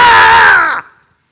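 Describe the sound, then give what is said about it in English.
A man yells loudly into a microphone. It is one harsh, sustained shout lasting under a second that cuts off abruptly, leaving silence. “That was me, buddy. I just yelled into the microphone. I'm sorry. That was a little loud.”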